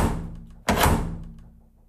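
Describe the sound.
A door slammed shut: one heavy, loud thud that rings briefly and fades away over a low, steady hum.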